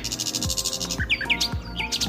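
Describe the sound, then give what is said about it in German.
A nightingale sings a fast, varied phrase of bright chirps, trills and sharp whistled notes, with quick repeated pulses running under a few higher, swooping calls. “Wenn Vogelgesang ein Gitarrensolo wäre, dann wären wir hier bei jemandem, der komplett eskaliert. Sie flext ordentlich, die Nachtigall.”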